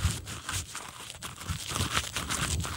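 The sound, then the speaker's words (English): Tree bark being chewed by a person: a series of dry, crunchy bites and grinding crackles, fairly quiet and uneven in rhythm. “So what I'm doing is I'm chewing bark. It's not really all that tasty.”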